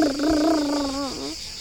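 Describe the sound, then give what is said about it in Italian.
A voice imitating a tractor with a rolling, purring drone lasting about a second and a half, fairly even in pitch with a brief dip near the end, and no words spoken. “Come fa il trattore?”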